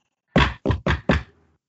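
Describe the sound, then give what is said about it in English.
Four firm knocks on a door, evenly spaced and sharp, with silence around them and no talk. “Yeah, knock. Just go up and knock on the door first.”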